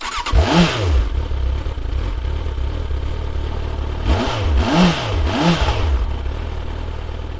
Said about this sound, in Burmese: ကလပ်ကိုလွှတ်လိုက်တော့ဆိုင်ကယ်ကအရှိကိုဖြည်းဖြည်းချင်းရွေ့သွားပါတော့တယ်။